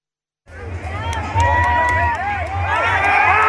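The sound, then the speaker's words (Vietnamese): Crowds of football fans celebrating a national team victory in the streets of the capital around the stadium, a loud mass of cheering, shouting voices and babble that rises abruptly after a brief silence and stays dense. “Hàng vạn cổ động viên đã kéo ra các tuyến phố mừng chiến thắng, biến đêm thủ đô thành một lễ hội đường phố ngập tràn cảm xúc trong đêm qua”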